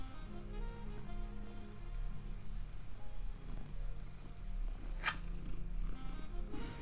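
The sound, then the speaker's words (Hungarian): A cat purrs in a soft, low, continuous rumbling rhythm, faint throughout, with one brief sharp click partway through. “Mi van, cica? Halljátok, ahogy dorombol?”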